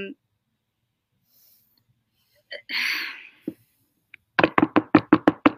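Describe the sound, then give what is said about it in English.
Someone knocks hard on wood in a rapid run of many sharp, evenly spaced raps near the end. A few scattered quieter sounds come before the knocks. “knocking on wood very, very hard.”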